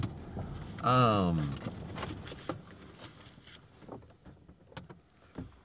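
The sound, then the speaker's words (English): A car pulls into a garage and parks. A brief motorized whine rises near the start, followed by scattered knocks and clicks while a person talks over the sounds. “One moment, let me pull in here and get parked, drive it into my garage.”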